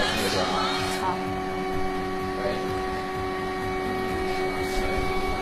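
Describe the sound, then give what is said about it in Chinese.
A 3D printer runs a print job from an SD card, giving off a steady mechanical whine with sustained tonal hums and faint motor movement under some talk. “快看一下，这过程好神奇啊！就是通过这样的一种 3D 打印机”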